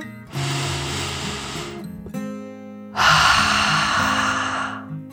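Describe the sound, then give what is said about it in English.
A voice imitates a dragon's deep breath: a long, drawn-in inhale, a short pause, then a louder, breathy exhale. “So with another deep dragon breath in and out,”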